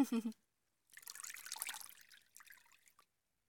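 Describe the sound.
Water trickling as a baby is washed: a brief voice at the start, then a soft splashy dribble lasting about two seconds that tapers into small drips.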